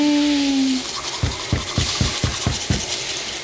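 Teeth are brushed in a bathroom with seven quick, evenly spaced scrubbing strokes of a toothbrush. They follow a fading whistle-like tone at the start, and no one speaks.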